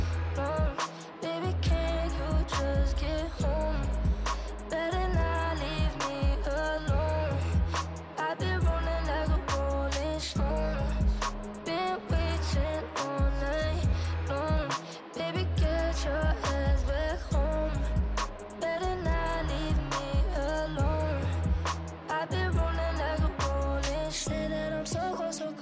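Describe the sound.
A pop song plays loudly for the whole stretch, with a steady, pulsing beat and layered melodic parts.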